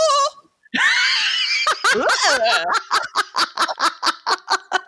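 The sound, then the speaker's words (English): A woman's shrill, sustained scream standing in for a swear word in the radio edit of a song, followed by a rapid series of laughing bursts. “just screaming.”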